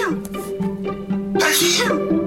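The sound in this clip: A single sharp sneeze from someone with spring allergies bursts out midway, loud and breathy, over a continuous tonal background.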